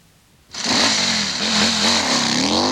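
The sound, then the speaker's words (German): A motorcycle engine bursts in after half a second of near silence, then revs loudly and steadily, its pitch wavering up and down as the throttle is worked. “Und das ist das Motorrad.”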